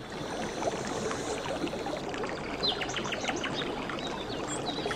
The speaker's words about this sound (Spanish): Sonido del bosque, los pájaros, el rumor del agua.